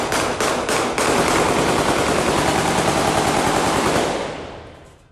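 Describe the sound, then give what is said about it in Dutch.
Automatic gunfire shot into the air at a funeral: a few separate loud shots open into a dense, continuous rattling barrage that holds steady and then fades out at the end. “deze begrafenis waar dit schieten zo extreem was”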